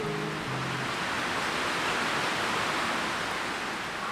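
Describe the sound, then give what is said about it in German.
Stormy wind roars through swaying, bending treetops in a forest, a dense, continuous rushing hiss much like ocean surf, steady and loud throughout with no distinct gusts or other sounds. “Über uns biegen sich die Baumwipfel im Wind. Es ist stürmisch, aber nur da oben. Ein Schwanken um uns herum und ein Rauschen.”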